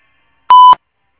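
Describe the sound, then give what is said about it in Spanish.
A single short electronic voicemail beep tone before message recording, clean and steady at a fixed pitch, alone against silence. “Si desea, deje su mensaje en la casilla de voz. Después del tono, grabe su mensaje.”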